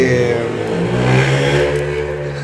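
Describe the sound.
Motorcycle engine running and revving, a steady loud mechanical hum with rich low harmonics that swells briefly in pitch midway before settling back.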